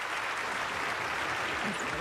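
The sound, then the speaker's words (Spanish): Applause from people gathered in a radio studio booth, a dense, even patter of clapping that runs throughout at a fairly faint level. “Es que la gente se alocó. Gracias a toda la gente que vino aquí a cabina a aplaudir.”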